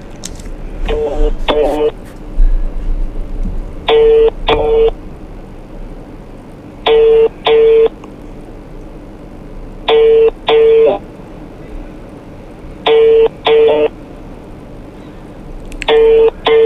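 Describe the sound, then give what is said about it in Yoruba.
An unanswered phone call rings out with a repeated double-ring pattern: two short tones in quick succession, recurring about every three seconds. The rings are clear and moderately loud over a low background hiss. “ó dàbí pé kọ́ọ̀lù yẹn ò fi bẹ́ẹ̀ bó ṣe ń dún wọn ò gbé”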